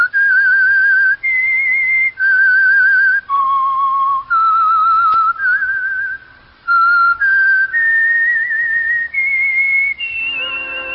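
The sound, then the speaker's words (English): A whistled signal tune: a clear, loud solo melody of sustained notes stepping up and down in pitch, heard alone with short breaks between phrases. “whistle be your signal for the Signal Oil program, The Whistler”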